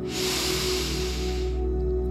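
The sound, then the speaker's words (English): A deep breath, in through the nose and out through the mouth, during a stress-relief breathwork exercise: one long, steady airy hiss that stops after about one and a half seconds, over a low steady hum. “we're just going to start with a nice deep cleansing breath in through the nose and out through the mouth. And again,”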